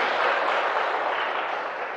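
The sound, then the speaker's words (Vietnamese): Applause from an audience at a Buddhist talk, a dense, steady clatter of many clapping hands that fades slightly toward the end. “cho chào pháo tay chung với tất cả ba vị.”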